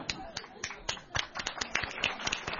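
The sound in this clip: A few people clap in sparse, uneven bursts, individual slaps standing out crisply, with voices talking alongside the clapping.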